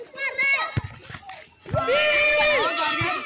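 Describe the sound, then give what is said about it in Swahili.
Happy children's voices as kids play and chase a ball in Kasindi during the school holidays: loud, overlapping shouts and calls, with a brief lull in the middle before the excited voices rise again. “Sauti za furaha na watoto ukimbizana na mpira zinaonekana kuwa sehemu ya maisha ya watoto wengi huko Kasindi wakati likizo za shule zinakaribia.”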